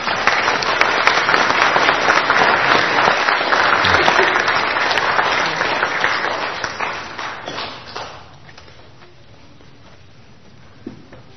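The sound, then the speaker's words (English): Applause from an audience during a church service: dense, steady clapping that holds for about eight seconds, then fades away to near quiet, with one brief tap near the end. “Let's welcome, or not welcome, but just let's give a hand here.”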